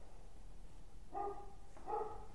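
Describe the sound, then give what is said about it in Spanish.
A dog on a dairy farm barks at arriving visitors: two short, faint, slightly whiny barks over a low steady background hum. “todo se dio cuenta que hay visita, está ladrando”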